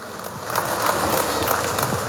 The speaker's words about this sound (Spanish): Fuertes los aplausos, hermanos, hay que despertar.